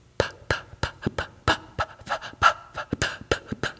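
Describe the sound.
Many quick popping P sounds made by a voice, some on inhaled and some on exhaled breath, the way children first learning the P sound produce them. They come as short, sharp, fairly loud bursts in an uneven run, with no words.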